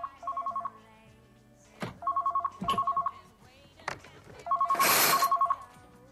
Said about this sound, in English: His phone starts to ring.